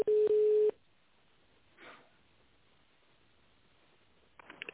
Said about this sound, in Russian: Наберите внутренний номер сотрудника или дождитесь ответа секретаря.